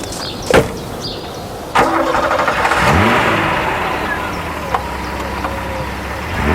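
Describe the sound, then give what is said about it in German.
A car engine starts and the car drives off. A sharp click comes first, then the engine catches with a loud burst, revs and settles into a steady running drone, with another short knock partway through. “Also, meine Lieben, ich fahre dann mal los.”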